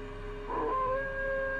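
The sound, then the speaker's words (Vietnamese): Drawn-out howling from a pack of dogs. Sustained wavering tones rise out of a low background hum, fairly faint and continuous. “bên tai của y nghe như cảm giác có cả một đàn chó đang thi nhau ngửa cổ lên hú.”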